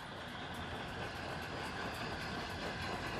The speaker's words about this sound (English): The train passes the signal box at Kidderminster Station.